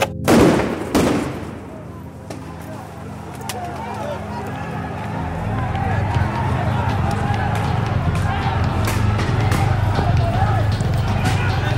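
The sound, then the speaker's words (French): Stun grenades go off at a street protest in Athens where Molotov cocktails and tear gas are used: a few sharp, loud blasts at the start, then a sustained roar of crowd noise with shouting voices. “manif à Athènes hier, la routine, Molotov, lacrymo, grenades assourdissantes”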